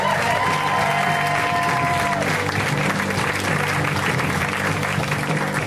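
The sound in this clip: Audience applause greeting a comedian at a comedy show, a full, steady wash of clapping that holds at an even level throughout.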